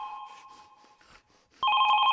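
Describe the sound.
A telephone rings with a trilling electronic tone. A fainter ring is followed by a sudden, much louder ring that continues steadily to the end.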